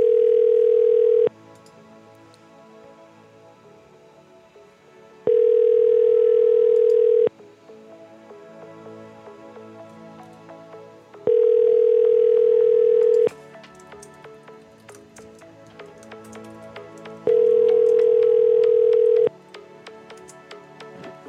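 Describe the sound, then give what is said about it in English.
Ringing tone of an outgoing telephone call: four steady, even-pitched tone bursts, each about two seconds long, separated by gaps of roughly four seconds, over a quiet background. “If this guy doesn't pick up, should I just leave him a really rude voicemail, see if he tweets about it?”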